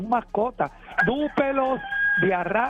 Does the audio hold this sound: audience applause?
no